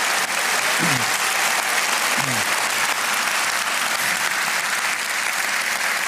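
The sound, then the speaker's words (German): Audience applause for the Gürzenich Orchestra in Cologne: an even, continuous burst of dense clapping from a large crowd, held at a steady moderate level. “Nochmal einen Riesenapplaus fürs Gürzenich-Orchester.”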